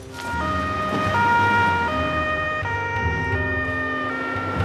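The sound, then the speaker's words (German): An ambulance siren wails in a two-tone pattern, switching between a higher and a lower pitch several times at a steady, moderately loud level, with no talk. “wir brauchen noch einen Rettungswagen sofort.”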